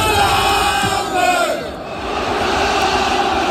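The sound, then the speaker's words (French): Olympique de Marseille football fans at the Stade Vélodrome after a Europa League penalty shootout win over Benfica, a loud, sustained roar of massed voices chanting and cheering that dips briefly and then swells back. “Écoutez l'ambiance à Marseille au stade Vélodrome.”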